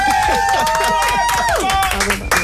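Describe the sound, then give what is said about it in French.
Applause in a radio studio, a burst of rapid hand claps mixed with voices and a few vocal whoops, staying loud throughout. “Bah là, tu m'applaudis, on dirait c'est mon anniversaire.”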